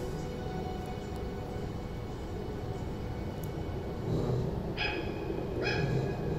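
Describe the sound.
Puppies bark in a few short, high yips and barks near the end, over a steady rumbling background noise.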